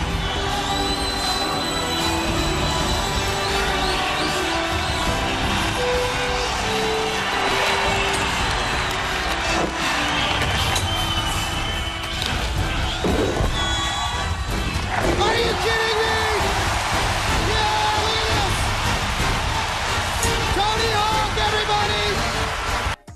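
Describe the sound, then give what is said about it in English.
An X Games crowd cheers the first 900 skateboard spin landed in competition, in 1999. A loud, sustained roar carries shouts, whoops and excited voices throughout. “That's 2.5 spins on a damn skateboard. It's the first time it was ever done in competition. Let's listen to my skater folk lose their mind.”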